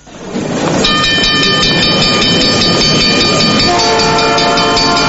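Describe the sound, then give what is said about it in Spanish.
A train rolls along with a loud, steady rumble while its horn sounds sustained, multi-tone blasts throughout; the horn's chord shifts to lower tones near the end. “Atención pasajeros, próxima estación, la vía libre del Trenzonal.”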